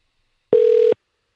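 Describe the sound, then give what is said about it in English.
A telephone tone sounds while a number is dialed: a single short, steady, mid-pitched beep under half a second long, heard alone with silence on either side. “I'm dialing the next one.”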